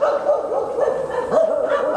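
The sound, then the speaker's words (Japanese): A hunting dog barking: a continuous string of short, yelping barks with whining, tonal edges, loud and unbroken across the whole stretch. “いたぞ、タヌキだ。 猟犬を連れてきて正解だったな。”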